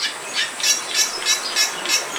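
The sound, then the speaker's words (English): Song of a Bali myna from an archive recording: a rapid series of harsh, high, squeaky notes repeating at a steady pace, fairly loud and alone without talk. “The 4-year-old Bali Mina in the Vallum aviary is bright white with black wingtips and a blue eye patch. Her species also has a distinct song.”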